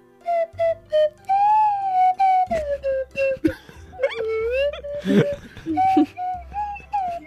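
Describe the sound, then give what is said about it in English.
A slide whistle plays a run of reedy, whistling phrases whose pitch swoops and glides up and down, with short breaks between notes, over a steady low hum. “It's the slide whistle.”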